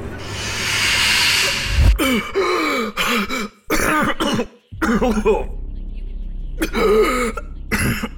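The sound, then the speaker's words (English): A person gasps for breath after being allowed to breathe again, with harsh, ragged inhalations, coughs and throat-clearing rasps coming in a few uneven bursts. “You can breathe again.”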